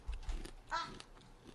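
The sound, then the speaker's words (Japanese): Crisp bites into a brown sugar chinsuko biscuit give a few short, faint crunches, followed by a brief voiced sound and quiet chewing. “ちょっと1個ポリっていっていいですか。 うん。あ、いい音。 むっちゃうまい。 え、何味？ 黒糖。”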